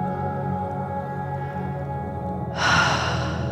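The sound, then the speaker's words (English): A held breath is suddenly released in a breathwork session for bravery, a breathy rush of air near the end over a steady, low ambient drone. “That's it. Letting it go. Releasing the breath. Releasing the fear.”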